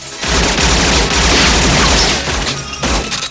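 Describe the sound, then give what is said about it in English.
Gunfire in a shootout: heavy, booming shots traded back and forth in a loud, almost continuous barrage, dipping briefly near the end before further blasts. “A man in black shoots at Forrest. He fires back.”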